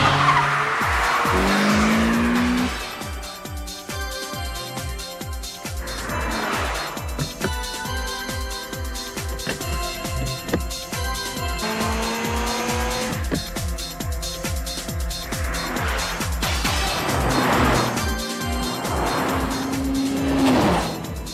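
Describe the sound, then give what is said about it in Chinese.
Tires squeal and an engine roars from a Mazda RX-7 FD race car with 350 horsepower in a cartoon race. The engine sound is loud and continuous, its pitch rising and shifting repeatedly, with several tire squeals and no talking. “高桥启介的 FD 好快啊， 350匹马力真系名不虚传，极力指入挂仲好掂添啊！”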